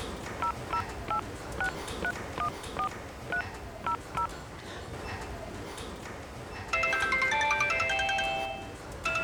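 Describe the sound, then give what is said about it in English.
A telephone rings with an electronic tone. It starts as short, evenly repeated beeps, then changes in the last few seconds to a louder, denser warbling ring. “Ah, that's my phone.”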